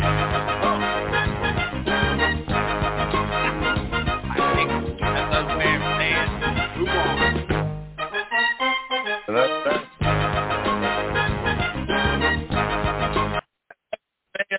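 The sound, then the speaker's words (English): The mystery crate segment jingle plays as continuous, full-band music with a brief sparse break midway, then resumes and cuts off abruptly near the end. “No, that is the sound of the mystery crate music, and when that music hits, we have to drop what we're talking about and open the mystery crate here.”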